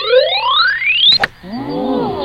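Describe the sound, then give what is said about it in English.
A rising electronic tone from an audio golf video game sets swing strength, sweeping steadily upward in pitch before a sharp click cuts it off. A softer, wavering set of tones follows. “the higher the pitch, the stronger your swing is going to be when I hit a key. And of course, the lower the pitch, the weaker the swing. So anyway, I'll hit W.”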